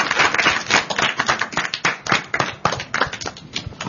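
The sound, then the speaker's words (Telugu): Children clapping at a quiz event, a dense and steady patter of many hands that stays fairly loud throughout. “చప్పట్లు కొట్టండి చక్కగా.”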